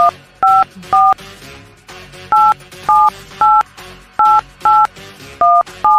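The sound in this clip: Touch-tone dialing of a phone number for a live on-air call-in: nine clear, loud dual-tone beeps in uneven groups over a quieter steady background.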